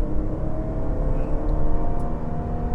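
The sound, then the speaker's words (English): A car engine with an automatic transmission whines at high RPM, around 5,000 to 6,000. The loud, steady drone carries layered tonal whine with no talking. “Can you hear that thing? That's 5,000 RPM. 6,000. Really whines, doesn't it? A real whiner”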